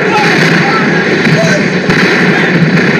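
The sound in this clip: Battle gunfire from soldiers in a radio drama of the action at Cuchillas del Tambo, where patriots fight off many enemies. A dense, loud and continuous crackle of shots runs unbroken from start to end.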